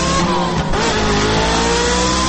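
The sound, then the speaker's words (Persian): A Paykan car's engine revs hard as it is driven in skids along a street, giving off smoke; a loud, continuous, high-revving drone fills the whole clip. “خبرنگار واحد غیر مرکزی خبر در خیابان در حال ویراج دادن با پیکان عزیزش. آخشون چه دودی هم میکنه.”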